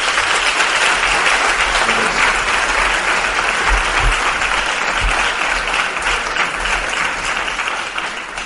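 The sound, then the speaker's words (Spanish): Sustained applause from a sizeable audience greeting a speaker at an evening talk on mysteries and enigmas. Dense, even clapping runs for about eight seconds and eases slightly toward the end. “No os veo, por la luz no os veo, pero por los aplausos veo que hay bastante gente.”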